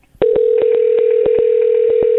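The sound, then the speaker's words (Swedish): Telephone number being dialed: a steady dial tone sounds throughout while many short clicks from the keypad fall over it at an uneven pace. “Vi ringer matchens lirare, Pontus Dahlberg, och lyssnar vad han tycker om saker och ting.”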